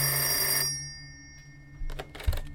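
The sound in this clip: A telephone rings as a call is placed, with a bright burst of ringing lasting under a second. Near silence follows, then a few soft clicks and thumps.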